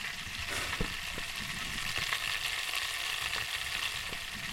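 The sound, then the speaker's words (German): Butter with cannabis extract simmering gently in a pot gives a steady, even sizzling hiss, with a few faint pops and ticks scattered throughout. “Und da muss das eine halbe Stunde leicht vor sich hin köcheln, damit die Cannabis-Extrakte in die Butter übergehen.”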